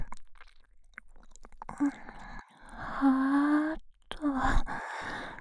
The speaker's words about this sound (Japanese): 検査がてら、お耳を舐めてチェックしているだけなのですが